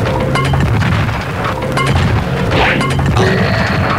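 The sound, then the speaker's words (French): A building blown up with plastic explosive, heard as a loud, sustained roar of booming and crashing debris that rumbles on throughout without a clear break. “Ça, c'est le bâtiment C qui vient d'exploser. Je l'ai plastifié juste avant de venir.”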